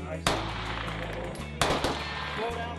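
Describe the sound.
Two sharp, loud gunshots ring out during firearms training at a shooting range in central Utah, where teachers are being trained by police. The cracks come more than a second apart, and each leaves a lingering tail.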